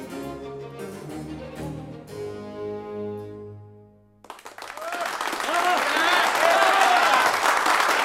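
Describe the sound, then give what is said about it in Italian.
A theatre audience bursts into applause after a person speaks. The clapping starts about halfway through, swells quickly and stays loud and dense to the end. “Non mi interessano gli applausi.”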